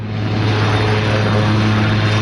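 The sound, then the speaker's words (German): A helicopter arriving for a state visit: steady, loud drone of dense rotor and engine noise with a constant low hum throughout. “wo er mit dem Helikopter angekommen ist”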